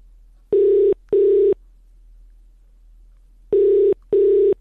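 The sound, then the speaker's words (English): Ringback tone from an outgoing phone call rings in two double pulses of a steady mid-pitched tone, separated by a longer silent gap. “I have to let it ring until it goes to voicemail, Kela. I can't do anything about it.”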